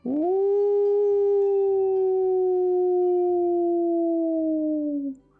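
An old wolf howls toward the sky in one long, loud, clear note. It swoops up at the start, holds steady for several seconds and sinks slightly before stopping abruptly.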